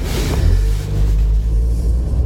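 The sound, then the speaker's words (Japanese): Low engine and road rumble from a car squeezing past an oncoming car on a narrow road, a heavy, steady droning hum with no voices. “ちょっと今狭い道ですれ違いをしているので”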